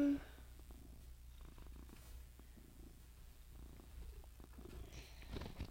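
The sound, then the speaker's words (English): A cat purrs in a steady low rumble throughout, fairly quiet and continuous, with a few soft clicks scattered over it. “I'm sorry, my cat's really loud.”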